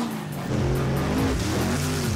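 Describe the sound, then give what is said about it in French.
Big cars roar as they race through mud puddles at a South Carolina mud-bogging event, a loud, continuous engine rumble whose pitch shifts up and down as the motors rev. “500 amateurs de gros bolides se retrouvent ici, en Caroline du Sud, pour rouler très vite dans des flaques de boue.”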